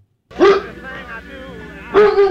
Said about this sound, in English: That's a Doberman Pinscher, who's trained by the police department.